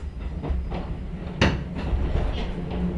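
Steady rumbling roll of a Hakone mountain railway train on rails at the head of a steep descent, with faint rhythmic rail clicks and one sharp, loud clack midway.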